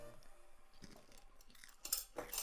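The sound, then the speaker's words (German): Crunching and chewing of homemade caramel popcorn, with a few crisp, irregular crunches that grow louder and sharper toward the end. “Und drinnen sind selbstgemachte Karamellpopcorn. Kosten wir jetzt mal.”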